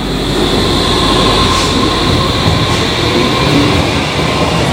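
A train pulling away from a station platform gives a loud, steady rumble with hissing rail and wheel noise throughout and no voices.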